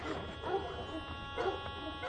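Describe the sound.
A dog barking faintly, with a couple of short barks over low background noise.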